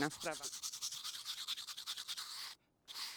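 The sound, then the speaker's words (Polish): A hand brush scrubs ice off a disc golf tee pad in winter with rapid, rhythmic, scratchy strokes. The strokes stop briefly near the end, then resume. A voice speaks briefly at the start. “mimo że nasze wspaniałe tee na drodze golfowej są świetne i topowe, to w zimę niestety mają pewne problemy z lodem. Dlatego taką szczoteczką, żebym nie połamał sobie nogi, nie urwał pachwiny i innych rzeczy.”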